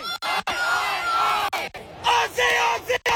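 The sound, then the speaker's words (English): A football crowd chants "Aussie, Aussie, Aussie" at an Australia soccer match: loud massed voices rise and fall in rhythmic surges, broken by a few brief gaps, with shouting layered through the chant. “And a big part of soccer is the chanting. Yeah. So when Australia play, you'll hear things like this. Aussie, Aussie, Aussie!”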